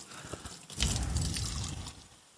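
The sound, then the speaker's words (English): Warm water, a third of a cup, poured into a bowl to begin feeding yeast, making a faint, brief trickle of about a second. “So I just need a 1/3 cup of water, of this warm water that I've got. And I'm going to put it into a bowl.”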